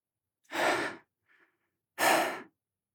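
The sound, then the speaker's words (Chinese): Heavy panting breaths from a man worn out after an exhausting fight: two long, loud, breathy exhalations with a faint, short breath in the pause between them. “下一秒，古天明连续不停的大口呼吸，还真是累呀！”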